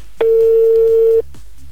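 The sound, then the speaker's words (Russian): A single steady ringing tone of an outgoing telephone call waiting to be answered, low and even, lasting about a second before cutting off over faint background sound. “А Акмаль, будем надеяться, ждет нашего звоночка и сейчас возьмет трубку”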